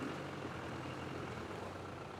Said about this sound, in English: Now he's helped from his wheelchair into a 4x4 vehicle to go for a drive with a friend.